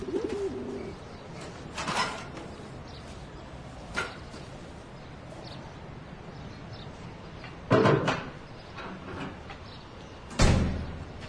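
Pigeons coo in a cage: soft, low, faint murmurs over a steady background hiss, broken by a few louder, sharper bursts.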